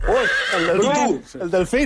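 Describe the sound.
A horse neighs in an animal-sound guessing game: one long quavering whinny, then a brief gap and shorter rising bursts. It is loud and fills the whole short stretch, with voices mixed in.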